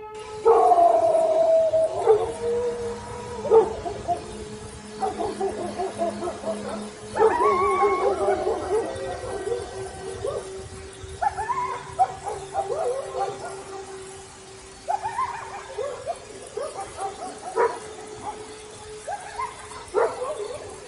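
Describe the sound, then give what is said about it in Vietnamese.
Several dogs bark loudly in a village on a cold winter night. Many repeated barks overlap, mixed with occasional yips and whimpers, and bursts come and go throughout. “Bỗng tiếng chó sủa dồn dập. Con này nghe con kia sủa thì cũng sủa ầm lên hết cả một góc làng.”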